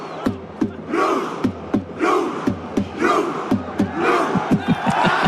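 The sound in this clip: Crowd of supporters cheering on the Norwegian team toward a world championship title, loud chanting that swells in waves over a steady run of sharp, evenly spaced percussive beats throughout.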